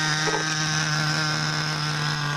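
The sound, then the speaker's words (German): The motor of a remote-controlled model helicopter set on a meadow, running as a steady buzzing hum with a strong low tone and many even overtones, constant in pitch and level throughout. “Und dann lädt er den Motor an.”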